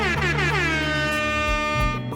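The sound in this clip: An air horn sound effect: a loud, blaring, brassy blast held for about two seconds, its pitch sagging slightly as it sounds.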